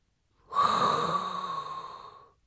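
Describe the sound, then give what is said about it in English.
A single long breath is drawn in with an airy, hissing rush that swells quickly, holds for nearly two seconds, then tapers off. The breath is heard alone, with no talk. “there is now only one thing left to do. And that is inhale a hot breath”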